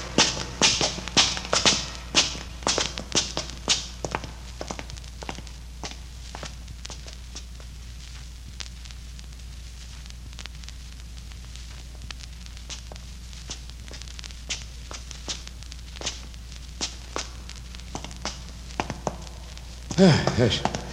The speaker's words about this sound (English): This climb is making me dizzy. I must be getting old. No, it ain't age, Doctor. We've climbed up more than a mile of these steps.